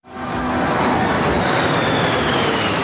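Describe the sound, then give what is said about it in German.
Military fighter jets flying low in formation over the National Mall during a US celebration: a loud, broad roar that swells quickly at the start and then holds steady, with no voices. “US-Präsident Trump mit viel Show natürlich, mit Musik von Militärbands und Kampfjets, die in Formation fliegen.”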